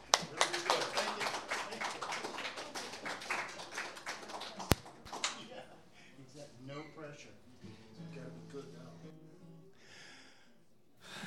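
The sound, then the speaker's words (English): Audience applause welcoming a speaker: dense, loud clapping for about the first half that thins out before a voice begins speaking. “Give him a big welcome.”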